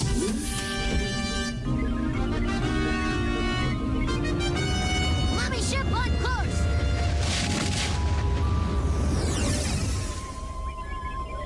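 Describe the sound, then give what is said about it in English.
Rocket blast-off sound effect for a spaceship launch in a cartoon, a loud, continuous roaring rumble that fills the whole stretch, layered with tonal sounds and easing slightly near the end. “Crew, prepare to blast off!”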